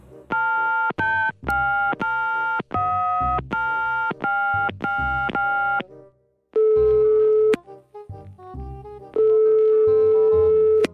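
Telephone call ringing tone, loud electronic beeps in a quick run of repeated bursts, then a few longer steady tones with brief gaps between them.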